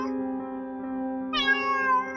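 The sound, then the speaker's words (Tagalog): A cat meowing at a window gives one drawn-out meow near the end, sounding above a steady held tone that runs through the whole clip. “Natigilan siya sa kanyang pagmumuni-muni nang makita ang pusa sa may bintana. Oh, ikaw pala, Muning.”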